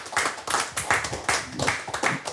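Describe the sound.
Applause from a small group at a live event, with many crisp, irregular hand claps running steadily and fairly loud through the whole short stretch.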